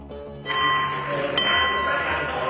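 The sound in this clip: Bell-like strikes ring out twice, the second about a second after the first, each with bright, sustained ringing tones over a steady background.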